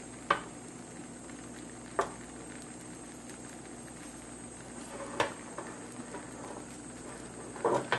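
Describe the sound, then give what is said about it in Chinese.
An egg fries slowly in a wok with a faint, steady sizzle, broken by a few sharp little pops and crackles. “热嘅时候咧，就可以将个鸡蛋咧就摆落去噶啦。跟住咧就将佢咧攞匀晒成个镬啦，然后咧就慢慢煎佢啦。”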